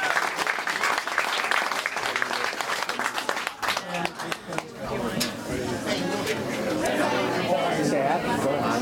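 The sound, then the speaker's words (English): Audience applause for speakers at a community event, dense steady clapping throughout with crowd chatter mixed in. “So big round of applause for all the speakers, and a big round of applause for Calvin and Hannah and crew”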